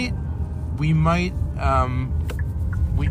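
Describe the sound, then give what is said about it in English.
A car drives along a city street, its engine and road noise forming a steady low rumble beneath people talking. “we're driving around.”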